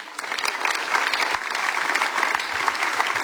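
Applause for the girl band Projekt plus minus 60: many hands clap in a dense, even, sustained patter without talk.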